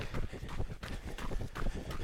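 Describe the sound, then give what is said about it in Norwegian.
Running footsteps crunch on a gravel road during a jog, a quick, steady series of many scuffing strides that holds a fairly even loudness throughout. “Men er det sånn at her vi er nå, nå springer vi på en grusvei.”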